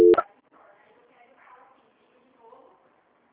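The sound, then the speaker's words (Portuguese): A short, loud telephone dialing tone sounds at the start as a call is being transferred, then faint, muffled voices follow. “Só um minutinho que eu vou estar transferindo a sua ligação, tá bem? Tá bom. Transferência.”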